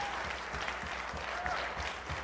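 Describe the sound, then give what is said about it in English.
A church audience claps for their pastor in a show of celebration, producing a sustained, even patter of many hand claps at a low, steady level throughout. “And if you can just celebrate by a big hand clap, the loving Pastor Stephen.”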